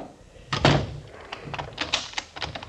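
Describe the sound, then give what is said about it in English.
A door being locked up: one dull thunk, then a scatter of faint clicks and light metallic rattles, all fairly quiet. “Just a minute while I lock up.”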